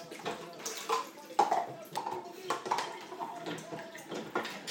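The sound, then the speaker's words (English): A cup being washed in a sink under running water, with many light clinks and knocks of ceramic against the basin over a constant splashing flow, fairly faint throughout. “I just found my cup from last night. I just found it in the sink as well. So excuse all the clattering. I'll try and do it as quietly as I can.”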